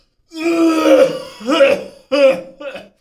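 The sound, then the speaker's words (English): Cough sound effects triggered from a soundboard button: a few short, throaty, voiced coughs in a row, the first longer, the rest quick and clipped, heard alone. “there can be a thing where if you hit it twice, it's another cough, and if you hit it three times, it's another cough.”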